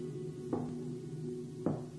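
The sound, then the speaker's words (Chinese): Two knocks on a door, about a second apart, each a brief dull thud over a low steady hum. “有人敲门。”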